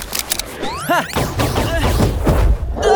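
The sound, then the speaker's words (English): Science-fiction laser pistol shots fired at a large creature: a few quick zapping bursts with sweeping, warbling tones over a loud, rumbling noise bed. “try your laser pistol!”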